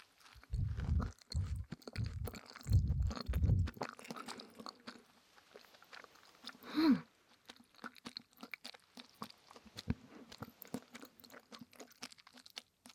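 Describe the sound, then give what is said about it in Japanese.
Someone eats large umeboshi pickled plum flakes: a handful of crisp, crunching bites at first, then softer, quieter chewing. “売りになってるこの大きな梅干しフレーク食べてみましょう。”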